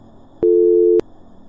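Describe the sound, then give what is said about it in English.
A telephone busy signal plays as a single steady, mid-pitched electronic tone lasting about half a second, alone over faint background hiss. “I was met with a monotone dial in response.”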